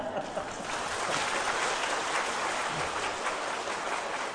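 An audience applauds steadily throughout, with dense clapping forming a continuous rustling wash of sound that holds at an even, moderate loudness.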